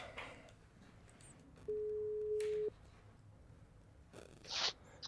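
A telephone ringback tone while a call is being placed: one steady, mid-pitched tone lasting about a second, alone over a quiet background hiss.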